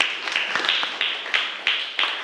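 A few people clap for a student during a lesson after he describes his picture. The sharp, separate claps come at an uneven pace and stay moderately quiet.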